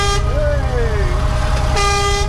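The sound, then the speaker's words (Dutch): Horns tooting as children pull their cords, a short blast at the start and a longer one at the end, over a constant low rumble. “Al die kindertjes die staan aan de horens te trekken.”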